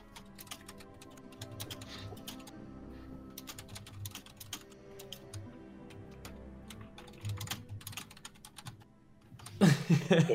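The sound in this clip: Typing on an old plastic computer keyboard: many quick keystrokes in an uneven patter that stays fairly soft, then swells into a louder, heavier burst of clatter near the end.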